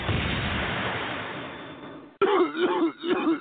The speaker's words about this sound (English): Sounds like you got a nasty cough.